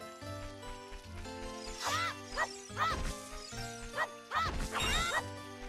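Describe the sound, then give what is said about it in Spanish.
Clay pots smash in a Zelda video game: a few sharp crashes and clattering breaks stand out over sustained, ringing game-music tones. “Zelda y el realismo, no sé qué. Mira, lo siento por destrozarte las vasijas, ¿vale?”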